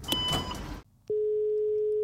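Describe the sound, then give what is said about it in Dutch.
A telephone signals an incoming call: a brief burst of noise, a short gap, then a steady, unbroken electronic tone holding one pitch at moderate loudness. “Er wordt gebeld.”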